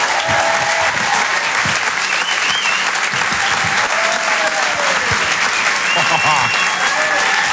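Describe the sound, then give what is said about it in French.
An audience greets a comedian with loud, sustained applause, dense clapping filling the entire stretch at a steady high level without a break. “Je vous demande un maximum de bruit, s'il vous plaît, pour Jérémy Créneville.”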